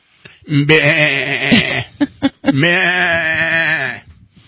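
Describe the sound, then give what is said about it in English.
Goats hired to clear land bleat loudly in two long, wavering, nasal calls, with a few short bursts in between. “Hiring goats. You know, it's time for the goats again. They're back out clearing land.”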